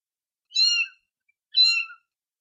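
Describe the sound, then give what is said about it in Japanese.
A small cat meows twice. Each call is high, thin and about half a second long, with silence between them. “小さな猫の鳴き声だ。”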